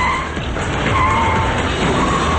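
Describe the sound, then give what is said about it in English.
A package delivery truck's tyres skid and slide toward a guardrail under hard acceleration, a loud, continuous rough hiss with a thin high squeal held steady throughout. “the truck slides into a guardrail, spilling ice from the styrofoam cooler in the back.”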